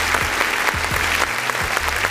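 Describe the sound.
Short burst of steady applause in a Houston radio studio, dense clapping lasting about two seconds over a low murmur.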